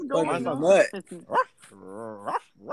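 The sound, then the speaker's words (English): A person imitates a hound dog barking, with a few drawn-out, voiced bays and shorter yelps that rise and fall in pitch. “Nah, mine sounds like a hound.”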